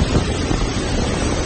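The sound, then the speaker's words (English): Roaring wind of Category 5 Hurricane Dorian pounding Grand Bahama Island in the Bahamas, a loud, continuous, gusting rumble with broad hiss and buffeting on the microphone, heard alone. “That's the sound of Hurricane Dorian as it continues to pound the Bahamas.”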